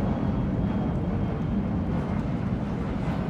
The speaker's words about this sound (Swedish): och planet lyfter strax efter klockan nio